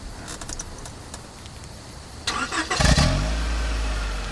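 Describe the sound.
A car engine starting: a few faint clicks, then the engine catches with a deep low rumble that settles into a steady running drone until the end.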